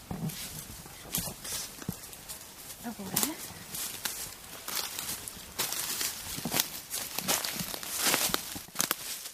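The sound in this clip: Footsteps walking through a forest, an irregular series of soft crunching steps of varying loudness, quiet throughout.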